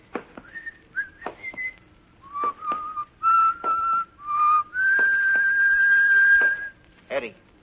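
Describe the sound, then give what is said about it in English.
A man whistles a song in clear, pure tones: a few short, choppy notes, then a long sustained note, then a brief closing phrase. “what's the name of the song that guy is whistling?”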